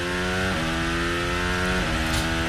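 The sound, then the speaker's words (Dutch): A Formula 1 car's engine drives past commentary positions on its way into the pit lane, a loud, harmonic-rich roar whose pitch steps down twice as it slows. “Kimi Antonelli op weg naar de pits. Dan rijden nu langs onze commentaarposities.”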